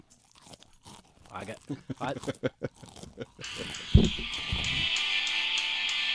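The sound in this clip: Someone crunching food while eating, a quick run of many sharp, dry crunches, followed by a single thump and a steady hissing noise.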